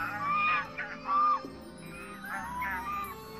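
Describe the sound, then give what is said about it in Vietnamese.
A flock of white swans flying overhead, giving several nasal, honking calls in uneven bursts, fairly faint. “Một ngày nọ, thái tử đang ngồi trong giường, có một đàn thiên nga trắng xóa bay ngang trên đầu.”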